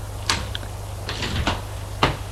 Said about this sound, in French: Elle a frappé à la porte